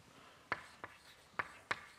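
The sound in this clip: Writing on a board during a physics lecture: four short, sharp stroke sounds, spaced unevenly and fairly faint, with no talk over them.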